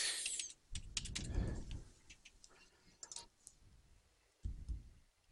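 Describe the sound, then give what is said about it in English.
Username and password are typed on a computer keyboard: faint, irregular key clicks in short bursts, with a few soft low thumps between them. “And I'm going to type in my username and password again.”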